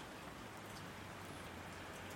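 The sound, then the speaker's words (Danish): Steady rain makes a soft, even hiss of countless drops, faint but unbroken from start to finish with no other sounds standing out. “Men nu er han nødt til at vente på, at regnen stilner af.”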